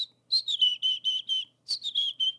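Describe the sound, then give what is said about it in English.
A person whistling an imitation of the chickadee song: two runs of short, high, clear whistled notes, each note sliding slightly downward, separated by a brief pause, with no other sounds. “I will go out and I'll whistle the chickadee song. It's basically close to what they do.”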